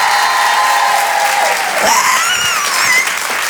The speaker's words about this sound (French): les filles, faites-moi du bruit s'il vous plaît.